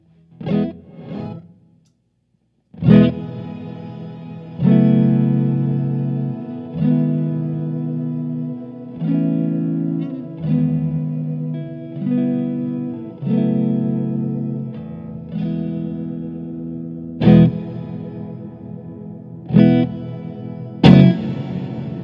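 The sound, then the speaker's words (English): Electric guitar through a touch-responsive reverb pedal whose reverb grows with harder picking: a few soft notes, then a run of strummed chords with washy, ringing tails, and sharper accented strikes toward the end. “But the more you dig in, the harder the reverb.”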